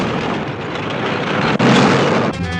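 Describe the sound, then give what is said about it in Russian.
A loud explosion in a war film scene with a burning German tank, a dense rumbling blast that fills the whole clip, breaks off for an instant, then surges again before shifting into a thinner, tonal roar. “Дымится немецкий танк. Взрыв поднимает комнату.”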